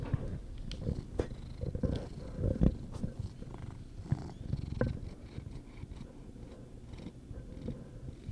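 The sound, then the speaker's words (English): Cat purring and pawing close against a microphone: a faint, low, steady rumbling purr with a few soft thumps and rustles. “that's literally Sweeney playing with the microphone. And we don't have like the best microphone so you can hear everything.”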